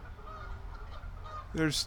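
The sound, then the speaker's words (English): Angry geese honking, pairs of geese in attack mode with heads down; a loud burst of harsh, harmonic honking rises near the end over a faint, steady background. “we've got 1, 2, 3, 4, 5 pairs of geese. Some of them are in attack mode with their heads down and they're angry and they're honking.”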